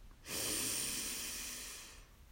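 A slow, deep breath in a guided relaxation exercise: one long, soft, airy breath lasting almost two seconds, quiet and alone.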